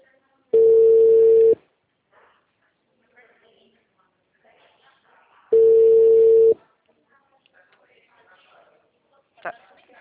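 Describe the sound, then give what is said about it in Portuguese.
An outgoing telephone call plays its ringing tone: two steady, mid-pitched tones, each about a second long and spaced about five seconds apart, with faint scattered noises between them. “Aí, tá ligando de novo.”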